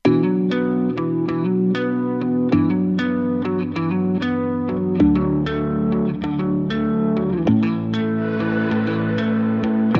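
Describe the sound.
Music from Switzerland's Eurovision entry plays loudly as steady, pulsing, effects-laden plucked chords. The chords shift to a new harmony every few seconds, and no singing is evident.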